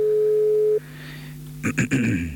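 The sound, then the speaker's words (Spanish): A telephone ring tone plays on the line during a call to a city councillor. One steady tone holds for just under a second and cuts off, then after a short pause a voice starts talking. “Estamos haciendo el llamado al concejal Nicolás Chiqui Andújar.”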